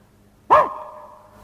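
A person imitates a dog barking: one short, loud, throaty bark with a quickly fading tail, alone against near silence.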